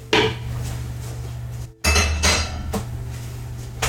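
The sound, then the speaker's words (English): A spatula scrapes coconut oil out of a pan with rough, gritty strokes and light metallic clinks. The scraping runs almost continuously, with one brief break near the middle. “I need a spatula to get the coconut oil out of this pan.”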